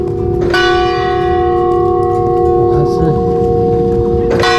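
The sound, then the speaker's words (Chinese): Automatic bell ringing on a campus: a struck bell rings out with a loud, sustained metallic tone and long shimmering overtones, and a fresh strike lands near the end. “钟声响咯，我们边走边听。”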